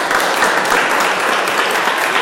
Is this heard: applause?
yes